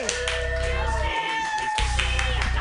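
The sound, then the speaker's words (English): Applause from an open-mic comedy audience welcoming the next comedian: a dense, steady wash of clapping that stays loud for the whole stretch, with high vocal cheers riding on top. “Put your hands together for Florentina Tanasi.”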